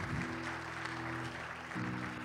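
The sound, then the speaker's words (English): A church audience applauding: dense, steady clapping from many hands, with sustained musical tones running underneath. “Give her a hand as she comes, church.”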